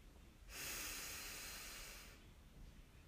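A single slow, airy breath taken during a guided meditation, soft and breathy, swelling in and then easing away over nearly two seconds, with no talking.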